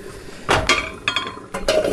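Metal cooking pot being set on a stove to make mushroom sauce alongside pasta, giving three short clattering bursts of clanks and clinks, moderately loud against quiet kitchen background.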